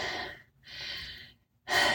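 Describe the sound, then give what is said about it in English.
Heavy, airy breathing from someone out of breath after hacksawing through a solid metal bolt: three loud, rushing breaths in quick succession, with no talking. “You look out of breath. Are you okay? I'm hacksawing through a solid metal bolt.”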